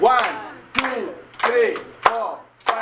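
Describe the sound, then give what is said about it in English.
Group clapping in rhythm: five sharp, loud claps at regular intervals, each joined by a burst of voices chanting along together. “Okay, so 8, 4, 2, 1. Let's try that. We start, we clap our hands 8 times,”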